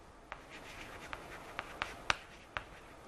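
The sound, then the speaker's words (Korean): Handwriting during a language lesson produces quiet scratching strokes. Half a dozen sharper ticks of the writing tool punctuate a faint, hissy background. “자, 다시 한번 써볼게요.”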